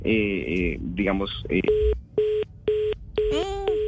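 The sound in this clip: Telephone tones as a call drops: after a burst of talking, a string of short, evenly spaced, buzzy beeps follows, with a voice briefly over the last ones.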